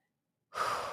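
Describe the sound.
A single sharp intake of breath, an airy hiss that begins abruptly after silence and lasts under half a second at a steady level.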